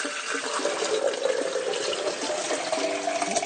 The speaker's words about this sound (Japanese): 今日は3杯分入れようかなと思ってるんですけどね。こんなもんか。そしてポットにお湯を戻す。